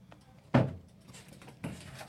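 A door is shut and then locked, giving two distinct solid thuds about a second apart, the first louder, with quiet background and no speech.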